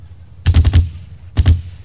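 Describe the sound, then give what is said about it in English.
Gunfire rings out in a loud, rapid burst of about four shots, followed after a short pause by a second, shorter burst of two. “You know how many bullets you're wasting on him?”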